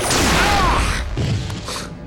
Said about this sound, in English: that was John shooting Dargo